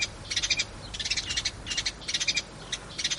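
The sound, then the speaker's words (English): A sparrow sings in repeated bursts of rapid, high, thin chirps, grouped into short trills separated by brief pauses. “For example, this sparrow's song”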